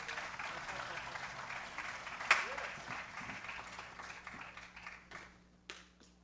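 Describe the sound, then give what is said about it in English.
An audience applauds after a live band's set, a faint, continuous wash of many hands clapping that thins out and fades near the end. “How about another hand for them?”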